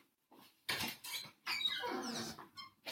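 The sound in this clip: A pet bird calling loudly just outside a door on a veranda, giving harsh, squeaky squawks in a few bursts, some with sweeping whistle-like tones.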